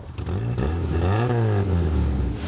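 A Volkswagen Golf GTI engine runs and revs, a loud, steady motor drone whose pitch climbs to a peak midway and then settles back down.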